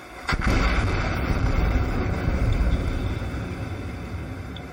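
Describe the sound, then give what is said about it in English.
Underwater air gun blast from a seismic survey for oil and gas exploration: a single sharp, powerful bang followed by a long, heavy rumbling tail that slowly fades over several seconds. “An air gun is a device used in seismic surveys for oil and gas exploration. It sounds like this.”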